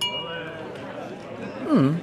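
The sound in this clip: Wine glasses clink together in a toast. The bright ringing tone rises at the start and slowly fades. A short voice sounds near the end.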